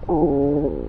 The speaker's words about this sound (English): listen to my stomach right now. Listen, I'm going to put it by my stomach.